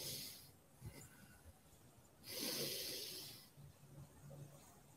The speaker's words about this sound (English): Pause and breathe. Remember, I remind you, nose. I'm a big believer in the nose breath. Let the belly expand.